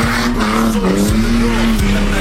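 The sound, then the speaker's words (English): A car skids and slides through an industrial estate while hooning. A loud, sustained tyre squeal runs over a constant droning engine roar with no break. “Skidding and sliding through a North Lakes industrial estate.”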